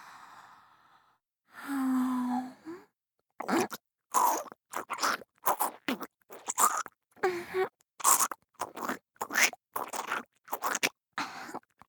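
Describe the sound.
Crunchy chewing while eating: a breathy sigh-like sound early on, then many short, sharp crunching bursts in a quick, fairly regular rhythm, each separated by brief silence.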